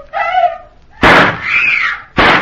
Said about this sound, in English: While Casey and Ali seek a means of crossing the channel, they are warned of approaching danger by several shots, and Amira screams for help